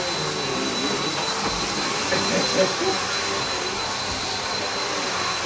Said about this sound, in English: So he's trying to attack the vacuum.